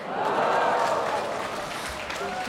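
An audience at a concert cheers and applauds in a brief, fairly faint burst of clapping and hurrahs that tapers off after the first second.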